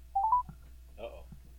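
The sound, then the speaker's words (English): Touch-tone telephone dialing beeps as a number is dialed to call again: a quick run of short, clear tones at the start, followed by faint talk. “We're going to call again. We got to leave the number.”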